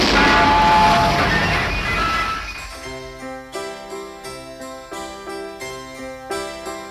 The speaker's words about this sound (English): And now, Radio 4 will explode.